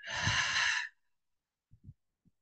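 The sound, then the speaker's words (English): During a breath-work exercise, a long, deep exhale rushes out through the mouth, loud and airy, followed by a few faint, soft breath sounds. “So we're going to take three deep breaths in through the nose and out through the mouth.”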